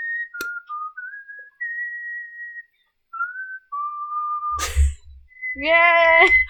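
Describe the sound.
A person whistles a short, wavering tune of held and sliding notes, with some notes breaking off. A sharp breathy burst follows, then a voice at the end.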